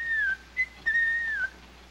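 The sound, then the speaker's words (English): A man whistles while hiking along a path through a valley: a short, clear, high melody of a few notes, some held and gliding slightly downward, fairly soft. Silence follows after the last note. “Steffel whistles as the two friends hike along a path through a valley.”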